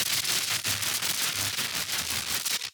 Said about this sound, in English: When you hear the sound of static like this,